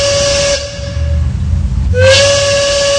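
A steam train whistle sound effect blows twice: a loud, harmonic blast fades out, a brief hissing lull follows, then a second blast slides slightly up in pitch and holds steady to the end.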